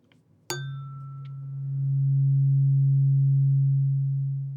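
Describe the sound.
A tuning fork struck once after a faint rustle: a sharp metallic ping with quickly fading bright overtones gives way to a pure, low, steady tone that swells slightly and rings on unbroken to the end.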